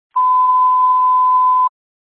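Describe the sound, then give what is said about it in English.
A radio dispatch paging alert tone for a rescue squad: one steady, high-pitched beep holds for about a second and a half, loud and unbroken, then stops cleanly. “Paging Clifton Rescue.”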